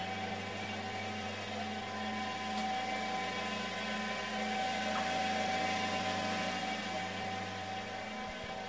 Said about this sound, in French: on va faire traverser les rubans dans la machine. Et donc on passe d'un ruban à un ruban, il est juste mieux peigné en traversant la machine.